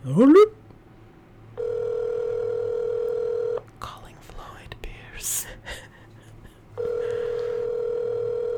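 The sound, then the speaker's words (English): A telephone call dialed out on speakerphone, with two long, steady ringback tones separated by a stretch of faint rustling and clicks. A brief rising chirp opens the sequence. “We're going to call right now. We're going to put it on speakerphone.”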